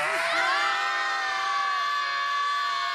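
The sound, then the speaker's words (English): Several voices scream together in one loud, sustained chorus. The high, overlapping shouts carry on without a break for the full three seconds. “Matter of fact, let's all scream.”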